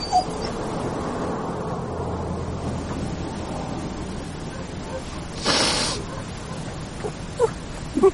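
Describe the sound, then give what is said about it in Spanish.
A female poodle lying down whimpers faintly, with soft, thin whines over a quiet background, a short breathy burst midway and a few brief yelps near the end. “La caniche está recostada sobre la tapa.”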